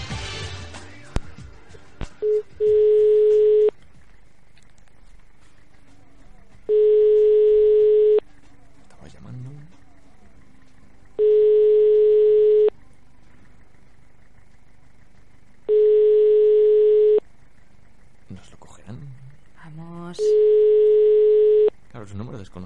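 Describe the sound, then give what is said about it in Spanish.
Telephone tone after a call ends or is cut off: five steady, loud beeps of about a second each, separated by long gaps, while people talk in the pauses between them. “¿Habrá sido el final de la llamada o nos han cortado?”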